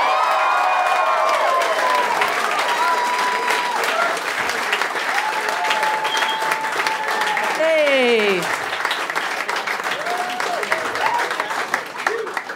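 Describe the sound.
Live audience applause and cheering welcome Frank Woodley to the Dum Dum Club stage. Dense, steady clapping fills the whole stretch, with whoops and shouts rising over it in several spots.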